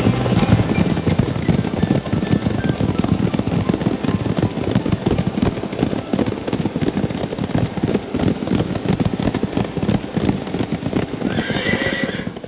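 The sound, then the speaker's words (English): Galloping horse hooves, played as a sound effect, drum in a fast, continuous, loud rhythm for the whole clip, and a horse whinnies over the pounding. “please help me welcome by giving a loud round of galloping hooves to my revolutionary guest”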